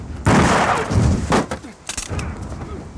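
Gunshots during a tense arrest: a few sharp, loud cracks spread over several seconds, the first followed by a noisy roar, with quieter rumble and clatter between the later shots.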